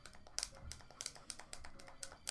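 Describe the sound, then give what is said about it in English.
Game controller buttons being slammed during play: a rapid, irregular run of many sharp plastic clicks and taps, fairly faint, with brief clusters of harder presses. “You just slam the buttons. Do you hear those buttons? You hear them?”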